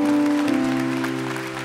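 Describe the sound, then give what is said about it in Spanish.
A church audience at an Easter service applauds in a dense, steady wash of clapping over a sustained held musical tone. “Queremos celebrar vuestra presencia con un gran aplauso.”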